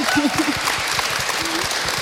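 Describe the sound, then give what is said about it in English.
Audience applause at a talk with discussions: many hands clapping in a steady, dense patter that continues evenly for about two seconds. “Should we give Charmaine a round of applause?”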